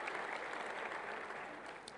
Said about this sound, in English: Now you can applaud. Okay. Welcome, Graham.